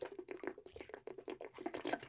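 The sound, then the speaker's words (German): A sip of water drunk from a bottle: faint, quick liquid sloshing and small swallowing sounds in a brief, irregular flurry. “Ich habe meine Flasche Wasser gerade in der Hand. Jetzt trinkt jeder erstmal einen Schluck Wasser.”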